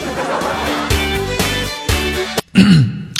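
Throat clearing from someone whose throat is irritated after eating instant noodles: a few rasping, throaty bursts in a row, ending with a short voiced grunt, fairly loud and close.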